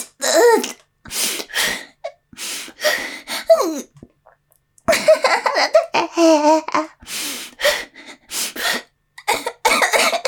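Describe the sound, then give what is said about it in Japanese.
Harsh coughing comes in repeated fits from someone who tried to hold a cough back, many short bursts clustered together with brief quiet gaps between them. “我慢しようとしたら咳込んじゃう。”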